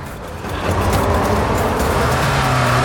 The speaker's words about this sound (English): opens fire on a van as it hurtles towards them